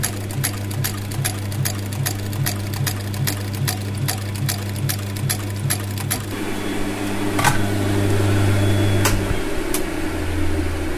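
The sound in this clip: A sewing machine stitches a seam in leather with a rapid, even run of mechanical clicks for about six seconds, then settles into a steadier motor hum with a few sparse clicks.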